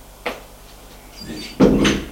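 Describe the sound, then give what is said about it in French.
Someone knocks on a door and enters a living room: one short, sharp tap, then a pause, then a louder, longer door sound as the door is opened. “Elle frappe et entre.”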